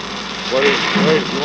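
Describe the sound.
Steady low engine drone fills the engine room of the boat Homestead, a constant hum and vibration running under men's voices talking.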